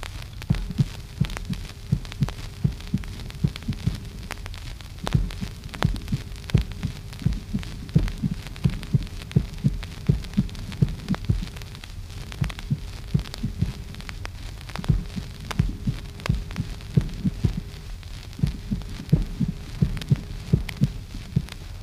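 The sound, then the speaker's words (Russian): Heart sounds of extrasystole in a bigeminy pattern: a premature beat follows each normal beat, with the extrasystole's first sound weakened and its second sound split. Many soft, low thumps repeat steadily over a faint hum. “Экстрасистола – это преждевременное сокращение сердца. Тоны экстрасистолы слышны после тонов нормального сокращения сердца. Первый тон экстрасистолы ослаблен.”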